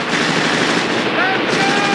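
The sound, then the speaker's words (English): Machine-gun fire rattles during a World War II battle scene in a film, with American soldiers fighting Germans: dense, continuous bursts of loud gunfire with no pauses. “The sergeant climbs over the wall, and the platoon charges the remaining German soldiers. Kelly guns down a German at close range.”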